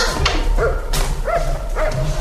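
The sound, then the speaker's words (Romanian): A dog barks a few times in quick, yelping bursts over a steady background noise. “Ia-te după glasul câinelui.”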